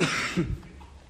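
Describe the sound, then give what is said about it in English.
A chest cough from someone getting over the flu: a short, faint, rough bout of coughing that quickly fades into quiet. “And now my chest cough that I had for 2 months has come back.”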